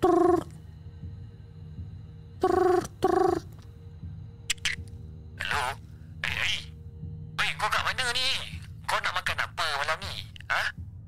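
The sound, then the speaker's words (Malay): A telephone rings while a call is placed: a few short, tonal ringing bursts with pauses between them, then a person talking over a quiet background hum. “Aku ambil telefon. Aku pun terus call lagi. Trrr.”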